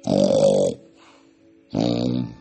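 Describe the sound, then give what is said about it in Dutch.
Someone snores in two loud, rasping, rumbling bursts, with a faint thin whistling breath in the gap between them. “Maar op dat moment werd hij onderbroken door gesnurk.”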